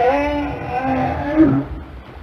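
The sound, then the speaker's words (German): A southern right whale calls with a low, drawn-out, harmonic moan over steady background noise, then gives a single upward swoop before fading. “Was wir gerade gehört haben, war ein südlicher Glattwal.”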